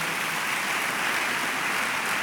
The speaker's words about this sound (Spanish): Gracias por ese aplauso